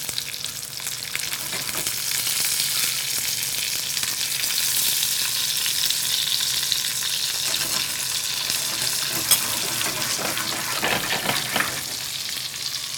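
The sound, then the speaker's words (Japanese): Stuffed olives shallow-frying in a generous layer of oil as they are rolled around the pan. A steady, hissing sizzle holds even loudness throughout, with a few sharper pops and no voices. “転がしながら揚げ焼きみたいな感じですね”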